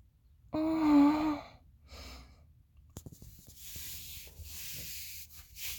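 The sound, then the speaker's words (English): A body rubbing against fabric makes soft, scratchy friction swishes, fairly faint and drawn out in several uneven strokes, with some breathy sounds mixed in and no talk. “The fabric feels so good when I'm spread out against it. I can't help it. Rubbing against it, right?”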